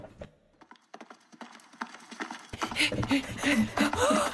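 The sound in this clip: Horse hooves clip-clopping during a long ride, a steady rhythmic run of hoofbeats throughout, with talk joining over the second half.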